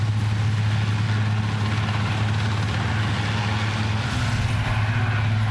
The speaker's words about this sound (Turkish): Şimdi ise helikopterle bu noktadan güvenli bölgeye götürülecekler.